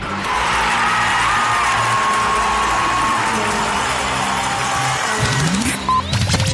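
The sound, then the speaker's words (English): Crowd hubbub fills Woody's Pub in Coquitlam, a loud, continuous din of mingled voices and bar noise, with a brief clatter near the end. “We are on location at Woody's Pub out in Coquitlam, and we want to thank all the staff here at Woody's for making us feel at home and having us out here.”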